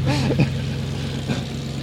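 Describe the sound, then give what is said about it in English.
A big local truck from Ohio driving past, heard as a low, throbbing engine rumble with a steady hum that swells slightly early on and again later in the short stretch. “There goes Bubba with his big truck.”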